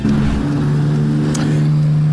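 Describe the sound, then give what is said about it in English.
Racing motorbike engines on the Isle of Man TT mountain course, a loud, continuous engine drone held at a steady mid pitch with a buzzing edge and no break. “Motorbike racers take to the Isle of Man TT as they compete on the unforgiving and dangerous 40-mile mountain course.”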